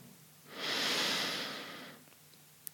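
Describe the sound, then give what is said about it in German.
A single deep breath drawn in through the nose during a yoga breathing exercise, a soft airy hiss that swells over about a second and a half, then fades, quiet and alone. “Atme mal ganz tief ein.”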